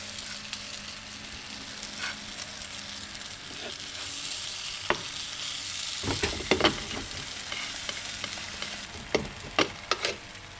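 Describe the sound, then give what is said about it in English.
Scallion pancakes sizzle in a lightly oiled pan over low heat, a soft steady frying hiss joined in the second half by a few sharp crackles and taps. “I'm going to put it on a low heat and just give it a light coat of oil. And then once the pan is hot, I'm going to put in the pancakes.”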